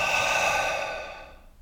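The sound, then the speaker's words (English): A deep, audible exhale through the mouth during a relaxation breathing exercise: one soft, breathy rush of air that starts strong and fades away over under two seconds. “Taking a nice deep breath in. And audibly releasing it.”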